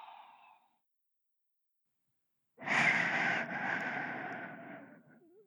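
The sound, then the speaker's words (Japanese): A deep breath during a guided relaxation exercise. One long, soft exhale rises abruptly and tapers slowly, alone apart from a brief faint breath tail at the very start. “吐いて。 そのまま深呼吸を繰り返して、”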